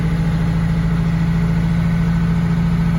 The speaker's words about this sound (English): High idle? Yeah, way high idle Cummins. That's a 5.9. Yeah. Probably a 12 valve.